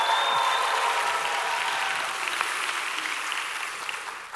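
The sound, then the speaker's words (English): A church audience applauds and cheers during a service, a dense, steady wash of clapping with a few high voices at the start, easing slightly in loudness toward the end. “If you love Jesus, make some noise in this house.”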